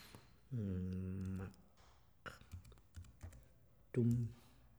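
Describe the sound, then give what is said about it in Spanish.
Typing on a computer keyboard: irregular quick key clicks, fairly faint, scattered between stretches of a voice that sounds briefly in the background. “Si quiere, yo lo escribo. Lo tecleo.”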